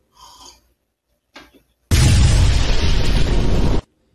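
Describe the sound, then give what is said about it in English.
A magical energy blast in a video game: a loud roaring burst of broad noise that lasts about two seconds and cuts off sharply, preceded by two brief, fainter sounds. “Whoa. I hit it with a magical energy blast.”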